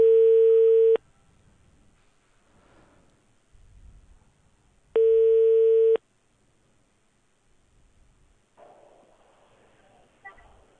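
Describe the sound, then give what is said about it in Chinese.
A telephone ringback tone plays while a call is being dialled: two long, steady, mid-pitched beeps about four seconds apart, each lasting roughly a second, with quiet rustling between them and faint scattered noise toward the end. “稍等，W 老师在拨打当中。”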